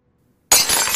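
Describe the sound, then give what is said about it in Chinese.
A ceramic teacup shatters on the floor: after half a second of silence, a sudden loud crash bursts in, with bright, crackling fragments that keep ringing to the end. “此刻唐门之中，只听砰的一声，一盏茶杯在地上炸裂开。”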